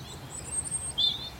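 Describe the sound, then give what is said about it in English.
A robin singing from an oak tree on a mountainside in spring, giving a few thin, high, sweet whistled phrases, faint above a soft steady background hush. “There's a robin singing from an oak tree just above me,”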